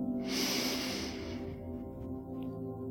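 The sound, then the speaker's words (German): A single deep, breathy inhale, soft and airy, rises over a quiet, steady musical drone and then fades, leaving the drone alone. “Atmen Sie tief ein”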